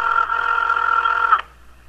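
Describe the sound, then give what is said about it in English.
A telephone ringtone plays as a steady, bright electronic tone. It holds for over a second, then stops abruptly and leaves faint background hiss. “I like how this ringtone sounds like someone throwing up. It sounds like a computer vomiting.”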